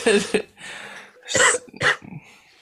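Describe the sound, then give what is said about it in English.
Wet coughing to expel mucus from the lungs, several harsh, throaty bursts broken by short gaps and a raspy breath between them. “There's mucus in my lungs that needs to be expelled. I'm in the process of expelling the mucus.”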